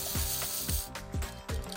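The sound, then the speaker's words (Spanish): Ratcheting clicks from a wind-up metal toy robot winding down after its spring stops being wound. Evenly spaced mechanical clicks with low thumps repeat several times in a steady rhythm, heard alone. “Claro que sí, en este caso un robot. Un robot de juguete, un robot metálico, por eso sonaba metálico, ¿vale? Que yo, pues eso, ahora suena así una vez que yo dejo de darle cuerda.”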